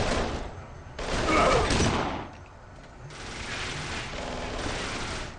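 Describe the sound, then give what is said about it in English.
Gunfire in a video game escort mission as enemies shoot at a limo: dense bursts of rapid automatic fire in two long stretches, the first louder, separated by a brief lull. “They're shooting at the limo! They're gonna blow it to bits!”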